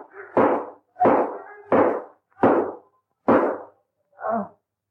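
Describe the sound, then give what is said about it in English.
Gunshot sound effects in a radio drama: six sharp, evenly spaced bangs about 0.7 seconds apart, each with a short decaying tail, the last one softer and duller. “Oh, thank God. I shot him. He's fallen to the floor. Despite his power, I've killed him.”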